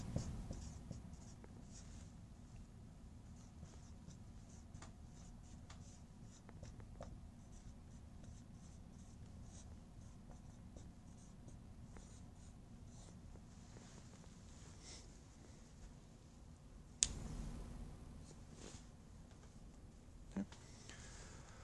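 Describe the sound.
Faint scratchy strokes of writing on a board go on steadily over a low hum, with a single sharper knock partway through.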